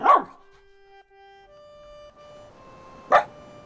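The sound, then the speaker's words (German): A dog barks twice, with two sharp, loud yelps several seconds apart and steady tones sounding between them. “Sie streichelt den Hund, der sich neben sie legt und ihren Schlaf bewacht.”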